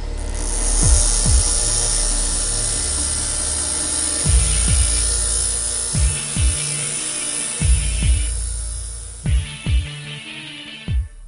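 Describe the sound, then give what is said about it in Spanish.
A saw cuts through the sternum of a body with a continuous harsh, rasping grind, broken by repeated heavy low strokes that grow more frequent toward the end. “Minerva suspiró, después se inclinó y apoyó la hoja bajo el esternón. ¿Qué haces? Eh, ya da igual, así queda más pequeño. Y accionó la sierra.”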